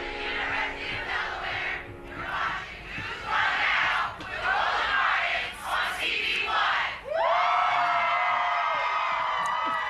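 A crowd cheers and whoops at a University of Delaware pre-Kwanzaa celebration, with loud, continuous shouting surging in waves and a sharper swell of cheers toward the end.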